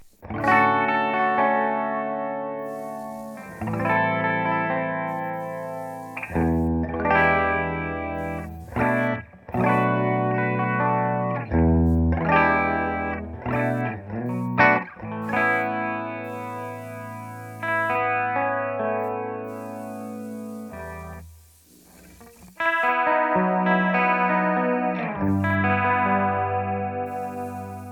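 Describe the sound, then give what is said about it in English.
Electric guitar from a 1978 Ibanez Iceman played through a 1976 Roland DC-50 Digital Chorus, giving a shimmering, wavering doubled tone; a series of ringing chords and short melodic phrases sustain and decay, separated by brief pauses. “It's about as good a chorus as you can get, I think. It sounds pretty sweet.”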